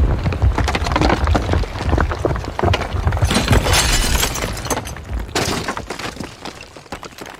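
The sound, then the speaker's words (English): A wall breaking apart as a sound effect: loud crashing and shattering with wooden cracking and splintering, a continuous rush of debris for about seven seconds that thins out and fades near the end. “You might be wondering what that sound was. That was the sound of the fourth wall breaking.”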